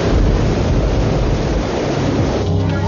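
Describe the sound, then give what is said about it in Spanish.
Strong wind lashes tree branches outdoors, a dense, roaring rush of noise that stays loud and steady throughout without pauses or voices. “En el exterior, el viento azota con fuerza las ramas de los árboles.”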